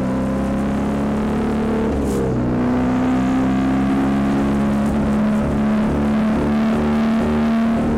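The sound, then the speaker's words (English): A six-speed motorcycle engine drones loudly and evenly while riding after a gear change, its humming tone shifting briefly in pitch early on before settling into a steady pull. “Then he lets the clutch out, puts the gas back on, and off we go. There's 6 gears on this bike, no reverse.”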